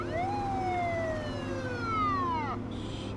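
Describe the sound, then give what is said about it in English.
A police car siren sounds as one long wail sliding steadily down in pitch before cutting off, over a constant background rumble. “He glances in the rear view at a following police car. The police car's lights flash.”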